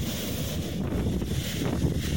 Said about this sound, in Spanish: Bastante viento.